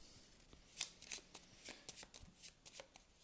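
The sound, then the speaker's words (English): Playing cards are shuffled back into the encounter deck of a card game, a faint run of many crisp, papery flicks and riffles in an uneven rhythm, with no talking. “I'm going to shuffle the Night Gaunt back into the encounter deck and draw something else.”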